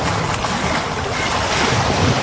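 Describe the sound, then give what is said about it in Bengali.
Water sloshes and churns loudly as a person steps into it. The rushing wash of noise is steady and dense for the whole moment, with no talking. “এই যে আমি পানিতে নামলাম।”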